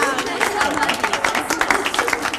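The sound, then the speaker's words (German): Applause in an indoor riding hall: dense, rapid clapping from an audience continues steadily, mixed with a faint crowd murmur. “Und Herr Binz hat nichts dagegen, dass auch Amadeus mitmacht, der natürlich wieder einen extra Applaus einheimst.”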